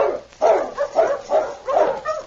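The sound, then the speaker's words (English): A sled dog team barks and yips in a series of loud, mid-pitched barks, about five or six in quick irregular succession with short gaps, some whining overtones between them. “He turned his attention to the dog team again.”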